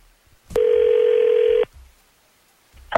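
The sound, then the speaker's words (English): A telephone call being placed: one steady electronic tone sounds for about a second and cuts off abruptly. Near silence follows, then a brief sound at the very end. “So let's call Abby and find out.”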